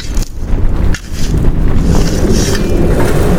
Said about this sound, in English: Brr, what in the Jack Frost? It's getting downright frigid. That wind ain't helping anything either.